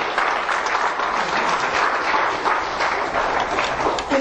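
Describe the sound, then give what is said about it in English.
An audience breaks into applause, a steady dense wash of many hands clapping at even loudness throughout, without speech on top. “Give it a hand of applause.”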